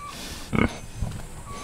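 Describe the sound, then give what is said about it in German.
Pig grunts from black-and-white Berkshire pigs on a farm: a couple of short, low, faint grunts, the first louder and clustered, over a quiet, steady background hiss. “wenn Georg Fleckel die Kaninchen, Hühner und die beiden schwarz-weißen Berkshire-Schweine Blitz und Pünktchen”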